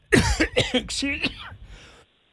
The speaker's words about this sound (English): Sorry for coughing in your ear.